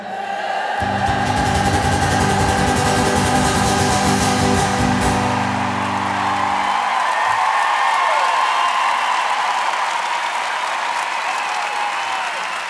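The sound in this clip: Applause and cheering from an audience at the Arena de Paris La Défense: a dense, steady roar of clapping and shouts that holds loud for the whole stretch, with low sustained tones beneath the first half.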